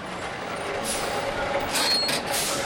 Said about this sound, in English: State inspectors flag down big rigs near the ports.